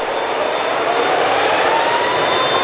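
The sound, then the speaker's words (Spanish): A Boeing 737 MAX 8 jet taking off gives a loud, steady engine roar with a thin whine over it, holding even throughout. “Este es el sonido que se está escuchando muy poco hoy en el mundo. Es el sonido de un Boeing 737 MAX 8 despegando.”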